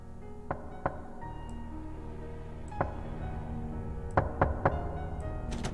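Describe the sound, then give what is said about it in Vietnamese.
Knocks on a door at night, sounding as a few dull, hollow raps spaced apart, then a quicker group of three near the end, all over a steady low background. “Sau đó, cái tiếng gõ cửa vang lên, có tiếng người đi lại lọc cả lọc cọc ở bên ngoài hè.”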